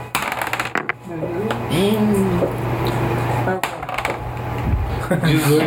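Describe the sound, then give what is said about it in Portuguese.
A six-sided die rolled during a Dungeons & Dragons tabletop session, giving a few bursts of quick hard clattering clicks on a surface, with people talking in between. “Se eu tirar um 6 no D6, eu passo.”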